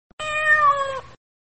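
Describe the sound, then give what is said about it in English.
A cat gives a single clear, drawn-out meow, steady in tone and sliding slightly downward at the end, heard alone. “cats meow”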